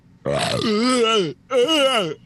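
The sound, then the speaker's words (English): A loud, voiced burp made of two drawn-out belches. Both have a gravelly, tonal quality with a wavering pitch, and the first runs longer than the second. “Sorry, I had a little. Burp.”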